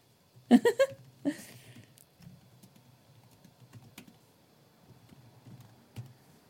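Someone writes down a prediction: a few louder clattering handling sounds at the start, then sparse, soft, faint taps and clicks with no talk.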